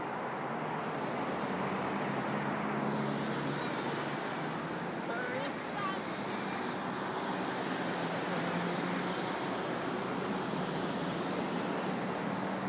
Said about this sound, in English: Oh, there's no shortage of traffic, is there?